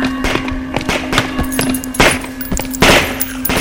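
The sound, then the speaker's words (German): Gunfire shoots down the infected in several sharp, loud shots at irregular intervals, the strongest bursts near the end, over a steady low hum. “Runter mit den Waffen! Die Infizierten, sie wurden alle erschossen.”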